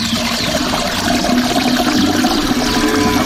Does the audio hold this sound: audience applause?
no